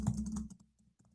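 Typing on a computer keyboard: a quick run of soft key clicks for about half a second, then a pause and a lone further tap.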